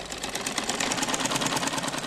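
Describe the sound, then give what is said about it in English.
Sewing machines whir in a fast, steady stitching rhythm as girls work at them in an airy room, a continuous mechanical buzz and clatter running without pause. “In an airy room in the compound, we find a couple of girls stitching and working on sewing machines.”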